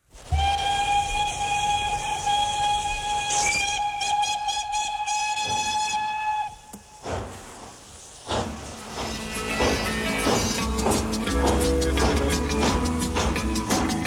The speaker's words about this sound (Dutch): je hoort een soort shadow-achtige muziek en een stoomfluit en een stoomtrein